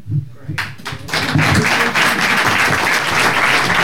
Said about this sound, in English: More ovations tonight than we know what to do with.